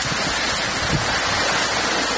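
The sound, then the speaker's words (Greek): Heavy rain mixed with hail falling in Tyrnavos after a strong downpour: a dense, constant hissing wash of noise with no pauses, loud and even from start to finish. “Στον Τύρναβο, μετά την ισχυρή βροχόπτωση, ήρθε το χαλάζι.”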